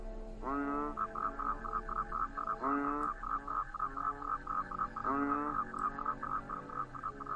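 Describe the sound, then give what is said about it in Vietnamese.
Toads and frogs croak outside in a steady pulsing chorus, with rising call bursts repeating about every two and a half seconds over a soft background hum. “Ở bên ngoài chỉ có tiếng cóc nhái vọng vào.”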